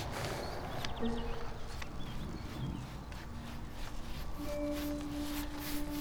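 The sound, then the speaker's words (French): Horse hooves clip-clop steadily as a horse named Derek pulls a calèche carriage up toward a charcoal-burning site at altitude, the hoofbeats mixed with a continuous rumble of wheels and outdoor noise. “Tracté par Derek, Sébastien rejoint la charbonnière en calèche.”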